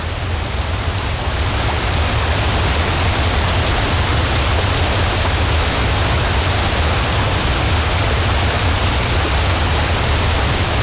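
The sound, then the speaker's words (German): Steady, loud roar of a waterfall plunging over 14 cascades and about 500 metres down into Lake Brienz, a dense unbroken rush of white water that holds at an even level throughout. “Der Giessbach stürzt über 14 Kaskaden und eine Gesamtlänge von 500 Meter runter in den Brienzersee, der ja wiederum auch wunderschön aussieht.”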